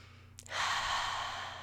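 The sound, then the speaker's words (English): A deep breath taken during a guided reflection opens with a brief click, then becomes a long, steady, airy rush of air that carries on, fairly loud, to the end. “Breathe deeply.”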